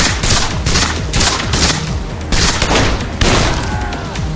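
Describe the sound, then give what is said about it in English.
Loud gunfire at close range, many firearms pouring shots at people on a slowly moving river raft, heard as a dense volley of sharp cracks and booms in rapid, uneven succession. “Most of the men with firearms were able to open fire at close range, pouring lead at them.”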